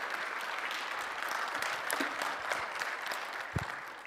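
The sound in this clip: Loud, sustained audience applause at a church summit, welcoming a guest speaker to the stage. Dense clapping holds steady for the whole stretch with no speech over it.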